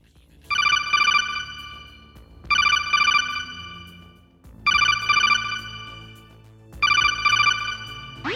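An incoming call rings in a Metal Gear video game: four loud, evenly spaced bursts of bright electronic ringing, each burst a quick double pulse, alone with no talk over them.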